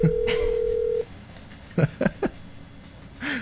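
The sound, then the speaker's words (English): Telephone call being dialed to a cell phone: a steady tone lasting about a second, then three short, separate beeps, and a brief faint sound near the end. “Want to call my cell phone? Yeah. All right, call it. I just want to make sure it works”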